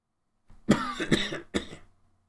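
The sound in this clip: A throat tickle sets off three quick, harsh coughs in a tight burst during a sermon, loud and rough, then fading into silence.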